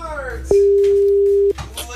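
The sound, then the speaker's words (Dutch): A single steady telephone tone sounds while a call is placed. It is loud and level, starts abruptly, holds for about a second, then cuts off, with voices before and after it. “We gaan dus nu bellen met Tom van der Weer”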